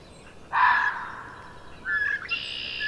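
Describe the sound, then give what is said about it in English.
A red-winged blackbird calls in two bright, buzzy phrases with clear gaps between them, alone over faint background hiss. “Oh, red-winged blackbird. And there's a mourning dove.”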